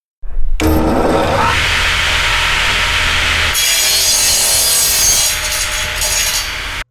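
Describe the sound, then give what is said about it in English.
Harsh, grinding shriek like a circular saw cutting through steel, loud and unbroken for several seconds, its gritty texture shifting partway through, with no voices. “behind me, some terrible noise. Noise like a circular saw going through steel.”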